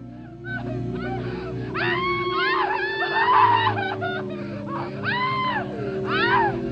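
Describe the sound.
Women scream in a horror drama sound effect: several high, wavering wails rise and fall over a low droning background.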